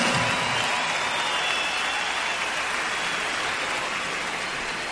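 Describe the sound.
Applause from an audience honoring an orchestra conductor: a dense, steady wash of clapping that holds at an even loudness for the whole stretch, with no clear voices standing out.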